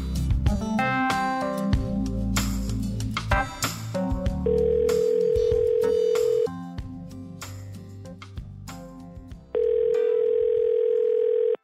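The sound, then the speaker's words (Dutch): Telephone call tones: two long, steady electronic beeps of about two seconds each, separated by a gap and sounding over loud music. “we bellen jou even”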